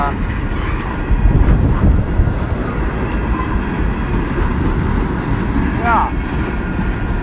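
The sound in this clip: A long train passes a cyclist with a steady, heavy rumble and rattling of rail cars, loud and continuous from start to end.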